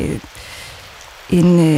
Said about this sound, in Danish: Og det lyder rigtig meget af regnvejr for mig. Ja, det er også det er regnvejr.